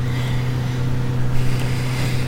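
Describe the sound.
A car engine drones steadily, a loud, constant low hum with a little rise in intensity near the middle and no voices.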